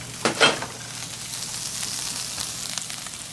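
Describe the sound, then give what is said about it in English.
Lobster sears in a pan with a little olive oil, a steady hiss of frying with two sharper pops near the start. The sizzle stays fairly quiet and even afterward. “Katsuya is going to start searing the lobster. And we got to use a pan, a little bit of olive oil, and we sear it.”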